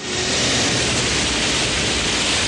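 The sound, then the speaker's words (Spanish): A huge wave of water crashing and flooding a corridor in an animated adventure film scene: a loud, dense, rushing roar that holds steady and unbroken throughout. “La ola de agua cubre el corredor y llega al extremo inicial donde está Ramsés, el cual adelanta sus manos queriendo protegerse. Pero la corriente lo arrolla y lo lanza a tierra.”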